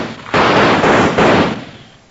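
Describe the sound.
Two loud gunshots during a nighttime Western-style ambush, each a sustained, roaring blast about a second apart, with no voices.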